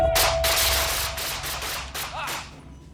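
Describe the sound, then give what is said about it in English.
Police officers fire a rapid volley of gunshots, many sharp cracks in quick succession, loud and dense throughout. “Shots fired.”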